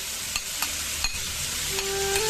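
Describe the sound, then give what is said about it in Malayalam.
Pineapple pieces with turmeric, salt and a little water set to cook in a pot give off a steady sizzling hiss, with a few faint stirring knocks. “ഇനി നമുക്കൊരു പാത്രത്തില് ഈ ഒരു കഷ്ണങ്ങളൊക്കെ ഇട്ട് കുറച്ച് മഞ്ഞൾപ്പൊടിയും ഉപ്പും അല്പം മാത്രം വെള്ളം ഒഴിച്ചിട്ട് നമുക്കൊന്ന് വേവിക്കാൻ വെക്കാം.”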